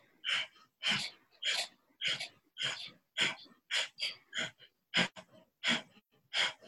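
Rapid rhythmic breathing from a Kundalini yoga breath exercise, with many sharp forceful exhales as the stomach pulls in, evenly spaced bursts with short quiet gaps between them.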